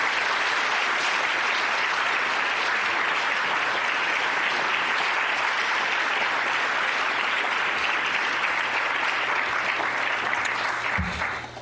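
Audience applause welcoming a lecturer at an LSE evening lecture: a dense, steady wash of many hands clapping that holds at an even loudness for about eleven seconds, then tapers slightly at the end.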